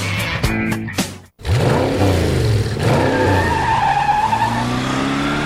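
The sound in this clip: Car engine revving in short bursts for a film advert, then a brief break before a long, loud tire skid screeches over the roaring engine.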